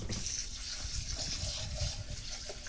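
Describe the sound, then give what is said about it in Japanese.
Water poured over rice in a bowl to rinse it, a soft, steady gushing stream that stays faint and even throughout. “まず一回お米をひたひたになるまでたっぷり水を注いで、一回 お水を捨ててしまいます。”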